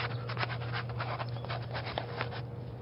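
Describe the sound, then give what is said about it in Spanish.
A pencil scratches across a maths worksheet as a grid is drawn, a steady run of short, dry strokes at an even pace. “Toma, en esta hoja de matemáticas dibujo un cuadrado con 10 filas y 10 columnas.”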